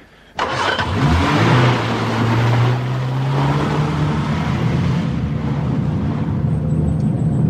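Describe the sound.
A car engine cuts in abruptly and settles into a steady mid-pitched hum as the vehicle pulls up, its tone turning rougher and more uneven toward the end.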